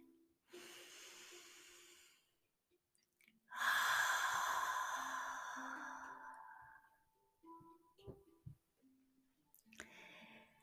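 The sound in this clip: Slow, relaxed breathing during a guided meditation for anxiety and stress: a soft inhale, then a long, audible sighing exhale that gradually fades, followed by a few faint breathy sounds in otherwise quiet surroundings.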